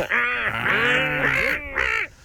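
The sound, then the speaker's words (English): A seagull calls in a run of several harsh, nasal squawks in quick succession, loud and alone with no talking. “The seagull. Oh, yeah, that was a bit of a gull, wasn't it?”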